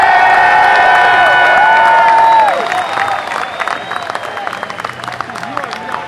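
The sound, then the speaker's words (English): A concert crowd cheers and applauds as the headlining band is welcomed, a noisy mix of clapping and shouts that is loudest at first, then settles into a rougher, uneven roar. “Please give a warm damn welcome to tonight's headliner, Animals as Leaders.”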